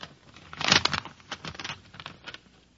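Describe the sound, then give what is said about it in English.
Paper crinkles and tears as an envelope is opened, with a louder rip early on and several softer rustles after it. The sound is fairly quiet and no voices are heard. “And now I open the envelope.”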